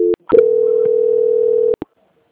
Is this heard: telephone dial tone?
yes

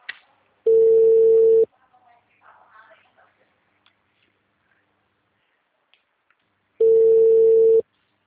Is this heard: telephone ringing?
yes

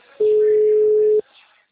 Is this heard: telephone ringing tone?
yes

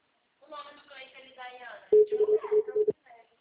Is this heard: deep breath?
no

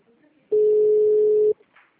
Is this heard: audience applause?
no

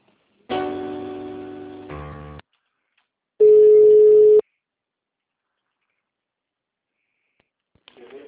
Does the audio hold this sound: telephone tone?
yes

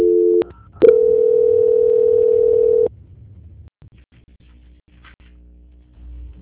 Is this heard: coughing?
no

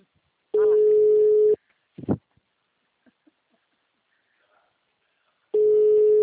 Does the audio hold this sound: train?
no

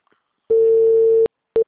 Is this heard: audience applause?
no

